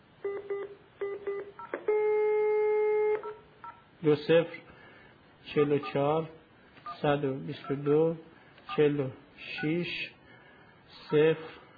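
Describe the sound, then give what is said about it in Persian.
Touch-tone dialing of a telephone number for a live call: a quick run of several short beeps, then one longer sustained tone, after which a person talks at length. “شماره که زیر نویس کرده رو بنده زنگ میزنم بهش، اگر الان اگه امکانش هست. بله شماره اگر میزنم داره تماس بگیریم.”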